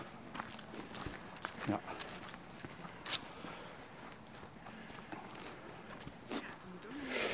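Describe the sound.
Footsteps of people walking along a path through the Moerputten after crossing a bridge: faint, irregular soft steps with a few sharper scuffs, and faint voices alongside.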